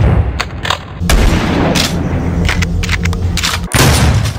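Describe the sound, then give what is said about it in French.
Booming blasts of a pump-action shotgun in a video game as it is fired at a monster, with many loud, heavy shots in quick succession and no talk. “Doom, ça reste le fusil à pompe qu'on recharge et qui nous permet d'exploser un monstre qu'on rencontre au tournant d'un couloir sombre.”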